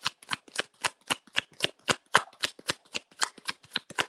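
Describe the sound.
Shuffling tarot cards during a card reading, many quick crisp riffling bursts in a steady, rapid rhythm that carries on throughout with no voices.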